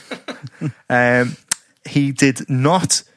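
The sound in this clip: A gunshot sound effect: a single sharp, very brief pop, like a cap gun, that cracks out between stretches of voiced talking.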